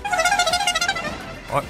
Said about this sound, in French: Mais pourquoi diffuser deux fois le klaxon du Tour de France